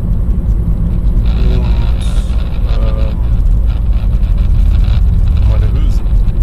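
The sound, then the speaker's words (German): A Skoda Yeti car driving, with a steady low engine and road rumble throughout and a man talking over it. “Das ist immer ungewohnt. Ich fahre gerade den Yeti.”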